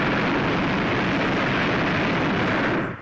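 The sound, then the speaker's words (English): A hot air balloon burner roars at takeoff, a loud, steady rushing blast that holds for about three seconds and then cuts off at the end. “Okay, you can walk us out a little way if you like. Into whatever wind there is. Burner coming on.”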